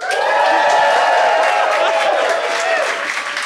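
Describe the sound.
A live audience at a taping at Sunny's Pizza cheers and applauds loudly. Voices and clapping blend into a steady, dense wash that eases slightly near the end.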